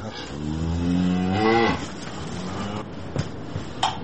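Cattle mooing, livestock kept at home in a snowy rural village: one long, loud, low moo swells and then breaks off, followed by a few quieter scattered knocks and rustles.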